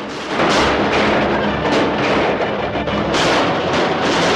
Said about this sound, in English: brothers and their accomplices return fire as they beat a hasty retreat. Sheriff Mosley and his men break cover and fire at the cart as it tears through the town.